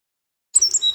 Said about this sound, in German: Der Zaunkönig. Diesen kleinen Vogel könnten Sie schon frühmorgens auf einem Zaun sitzen sehen.